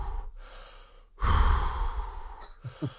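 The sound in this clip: Heavy breathing from someone out of breath after running a lap: a few ragged breaths, then one long, loud, gusty exhale, and finally two short, sharp puffs, with no talk over them.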